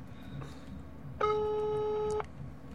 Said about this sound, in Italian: Attenzione, stiamo chiamando. Chiamiamo il numero mio.